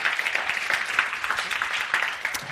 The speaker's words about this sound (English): Can we give those guys, the quartet, a hand? That was just fantastic.